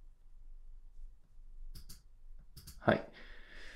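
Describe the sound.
A mouse click on a save button, a short sharp click heard among a person speaking quietly.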